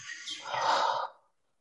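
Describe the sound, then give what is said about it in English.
Slow exhale through the mouth: a single soft, breathy rush of air that swells, holds for about a second, then fades into silence. “Take a deep breath to the pit of your stomach. Inhale. Slowly exhale through the mouth.”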